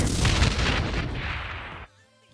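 A bomb explosion sound effect: a loud, deep, rumbling blast with a noisy crackling body that slowly fades, then cuts off abruptly into near silence.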